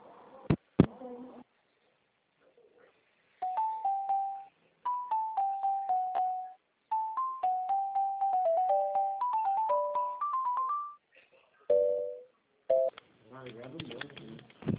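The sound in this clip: A telephone line plays electronic tones while a call is transferred, starting with a couple of clicks, then a long series of pulsing beeps that step through different pitches, ending in a few short bursts of higher tones.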